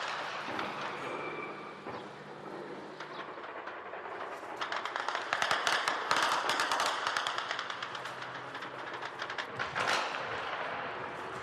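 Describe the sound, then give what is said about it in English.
Heavy gunfire during a night of fighting in Rafah: many sharp, rapid cracks in dense bursts over a constant rumbling background, thickest in the middle and again near the end. “But Israeli fire was overwhelming, relentless, and hugely dangerous to civilians.”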